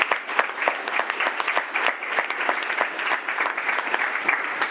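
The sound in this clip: Audience applause welcoming a speaker: dense, lively clapping that holds at a steady level throughout, with a few louder individual claps standing out.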